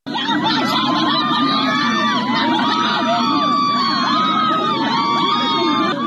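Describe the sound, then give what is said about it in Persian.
Protesters from a rural village shout together in front of a county government building in Lordegan, Chaharmahal and Bakhtiari province, Iran, objecting to the health ministry. Many voices form a dense, loud, unbroken roar of yelling and cries throughout. “این صدای معترضانی است که در روستای چنار محمودی، یکی از روستاهای شهرستان لردگان در استان چهارمحال و بختیاری در مقابل فرمانداری لردگان تجمع کردند.”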